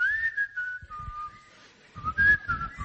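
Someone whistling a simple tune, a clear pure tone moving between a few pitches with short pauses, moderately loud, with soft low thumps beneath it.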